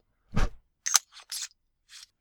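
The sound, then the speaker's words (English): Flint on a Titan Light lighter is struck after the lid is unscrewed, giving a few short, sharp scraping clicks separated by brief silences; no one talks. “So you unscrew the lid. And after you've unscrewed the lid and removed it, then you can strike the flint.”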